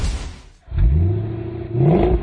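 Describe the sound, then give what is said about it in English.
The engine of a 1970 Cuda AAR revs in two deep surges, its low growl climbing in pitch each time, loud and with no talk over it. “What is it you're driving there? Is that a Cuda? Yeah, it's a 1970 Cuda AAR, actually.”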